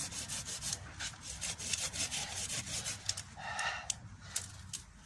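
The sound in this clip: A saw with a worn, frayed blade cutting partly into soil, producing many fairly quiet, rhythmic rasping strokes that scrape back and forth without pause.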